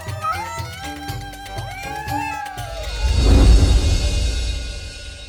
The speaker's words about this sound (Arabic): دعونا نكرم أصحاب الفضل ونطعمهم أفضل الطعام ونسقيهم اللبن. إنها القطط البواسل.